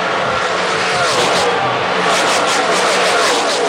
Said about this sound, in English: does that make it sound like we're at the race? Yeah. We're in the pits, guys.